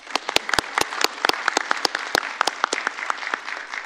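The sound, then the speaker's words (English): Scattered clapping from a small audience at an award recognition ceremony: many sharp, distinct individual claps in an uneven rhythm, moderately faint and gradually thinning toward the end, with no talking. “Great, I was going to ask for a round of applause”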